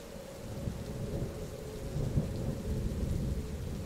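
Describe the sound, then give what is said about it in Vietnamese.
Thunder rolls through a heavy thunderstorm with pouring rain, a dense, continuous low rumble over a steady wash of rainfall that holds fairly even in loudness throughout, with no voices. “không dám nhìn cái khung cảnh giữa bão bùng mưa gió, sấm chớp rợp trời”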